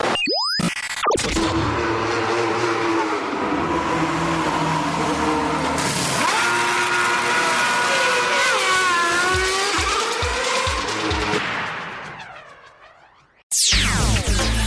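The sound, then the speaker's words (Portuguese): A short jingle built from racing-car sounds introduces a feature on the 1997 Monaco race: continuous roaring engines with sweeping whines and tire squeals, fading out near the end before a sudden burst of sound. “Vamos passar, sim, a vinheta, porque já vai começar o bloco da corrida clássica a respeito de Mônaco, 1997.”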